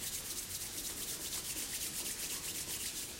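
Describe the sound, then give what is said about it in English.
Palms rubbed together as fast as possible during a chair yoga exercise, giving a continuous dry swishing friction that stays steady and fairly loud throughout, with no voices over it. “Rub your palms together as fast as you possibly can.”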